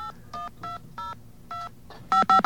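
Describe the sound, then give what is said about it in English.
Telephone keypad tones as a number is dialed, a run of short clipped beeps spaced unevenly, the early ones softer and the last three louder and quicker in succession, with no voices over them. “Quick, let's call FEMA. Yeah, let's call FEMA.”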